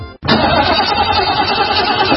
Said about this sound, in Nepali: के भयो, किन बन्द भएको गाडी? ब्याट्री फेरेको 10 दिन पनि भएको छैन, कति छिटो बिग्रिएको, बन्द भएको भइसक।